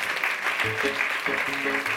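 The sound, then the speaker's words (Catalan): Applause at an awards ceremony honoring a university student prize winner: dense, steady clapping that fills the full two seconds without a break. “Aplaudiment.”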